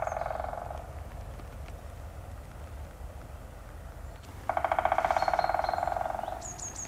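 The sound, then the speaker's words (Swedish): White-backed woodpecker drumming: a fast, even drum roll of about two seconds rings out loudly and tapers slightly at the end, following the tail of an earlier roll, with a few thin, high bird notes at the close. “Jag tror faktiskt det är en vitryggig hackspett som trummar.”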